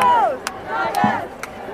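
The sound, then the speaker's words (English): A crowd of student protesters at the Columbia University encampment, with massed voices shouting and calling over one another and a few sharp bursts breaking through a steady roar. “New York City police are massed outside the gates, but the deadline passed and the crowd of student protesters has grown dramatically.”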